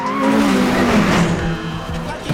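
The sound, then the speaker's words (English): A McLaren 600LT Spider sports car speeding past: a loud engine roar whose pitch falls as it goes by, then eases off. “I knew that sound. That's a McLaren 600 LT Spider. It's a car. The car picks up speed. Really fast one.”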